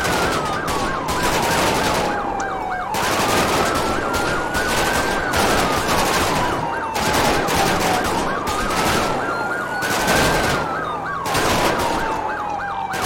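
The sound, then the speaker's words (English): Automatic gunfire during a video game police pursuit of an armored money truck: rapid sharp crackling bursts beneath a continuous loud siren that repeatedly wails up and down in pitch. “they're shooting automatics at 1047. Crossing Sonora Freeway again, heading back onto Union Road. This is getting too dangerous and it's endangering the public lives. We're gonna 22 the pursuit, cuz they're firing automatics at”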